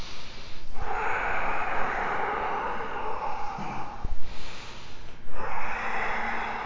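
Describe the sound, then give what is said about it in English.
Slow, deep yoga breathing, full inhales and exhales drawn as long, airy rushes of a couple of seconds each, alternating in an even rhythm with brief pauses between them. “Full inhale, full exhale. Breath in and out.”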